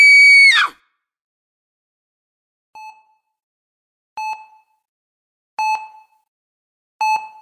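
A loud, high-pitched scream of fright in a morgue lasts about half a second and drops in pitch as it cuts off, followed after a silence by four sparse, soft electronic beeps.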